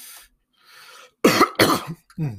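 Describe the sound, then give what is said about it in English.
A person coughs a few times in quick succession. Fainter breathy sounds lead into harsh, loud bursts, with no speech. “Excuse me. You know, I talk so much, I cough like that.”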